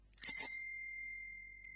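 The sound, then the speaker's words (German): An old, dusty bicycle bell found in a barn rings once with a quick rattling strike, then leaves a clear, high, steady tone that slowly fades away in silence. “Er probiert die alte Klingel”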